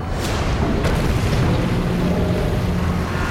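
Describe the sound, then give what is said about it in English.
Small explosions erupt in a ship's engine room: a dense, loud, continuous roar of booming rumble, with deep low-end weight and no voices. “A series of small explosions erupt in the engine room.”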